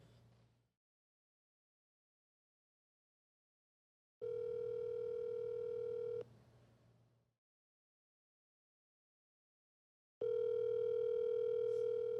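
Telephone tone of an outgoing call: two steady electronic tones, each about two seconds long, separated by several seconds of silence, after a brief faint sound at the start.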